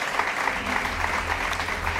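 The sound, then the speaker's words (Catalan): Audience applause at a cultural-week music performance, a dense, steady wash of clapping sustained evenly at moderate level. “I per això demano un fort aplaudiment a Miquel, en el clarinet, que vinga a tocar.”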